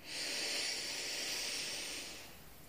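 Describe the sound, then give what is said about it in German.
A slow, deep inhale during a guided breathing exercise for stress relief: a soft, airy hiss that holds steady for about two seconds, then tapers off. “ein letztes Mal auf vier einatmen”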